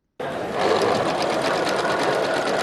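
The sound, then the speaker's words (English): Sewing machine stitching headscarves at a community center in Christchurch, New Zealand, starting abruptly and then running in a steady, rapid, loud whirring rattle. “Volunteers come together Sunday, sewing headscarves at a community center in Christchurch, New Zealand.”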